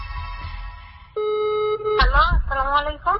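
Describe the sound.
A steady telephone tone sounds once for just under a second as a phone call is placed, followed at once by a voice talking over a fluttering, clipped line.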